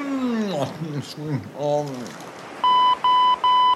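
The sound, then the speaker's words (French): Answering machine beeping: three steady, evenly spaced, loud high-pitched beeps. Before them, voices make sliding, crooning sounds. “Pas du tout, professeur. C'est votre répondeur.”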